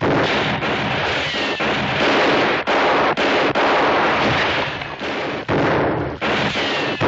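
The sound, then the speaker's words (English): Heavy gunfire in a firefight, with sharp cracks punching through a dense, continuous roar of shots. The barrage stays loud and unbroken throughout, with no voices. “Hold your fire. They ain't shooting back.”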